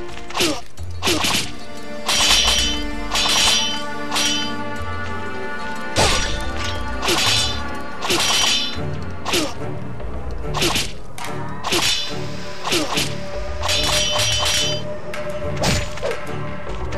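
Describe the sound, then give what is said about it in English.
Video game combat against a samurai, with blocked blows and a thrown ninja shard: many sharp, loud whacks and clashing impacts in quick irregular bursts with swishing strikes. “He's gonna just hit me, but I'm gonna block him. I'm gonna keep blocking. I'm gonna throw a ninja shard at him.”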